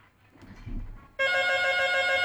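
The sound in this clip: A telephone rings in on a call-in line, a bright, steady electronic ring that starts abruptly and holds at even loudness, preceded by a short faint rustle.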